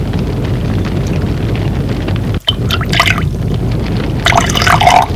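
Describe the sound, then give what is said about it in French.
Boiling-hot chocolate being poured, a steady liquid rush over a dense noisy bed, with a brief break partway through and brighter splashing bursts toward the end. “Le chocolat est bouillant. Il sert le chocolat.”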